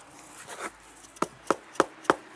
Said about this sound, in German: Jetzt reibe ich hin, bis er knirscht.